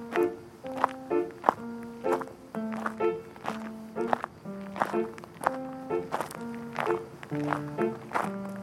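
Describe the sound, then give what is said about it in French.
Footsteps of a man walking aimlessly, with no set destination: many steady, evenly paced steps over a sustained tonal background. “Il marche sans trop savoir où il va.”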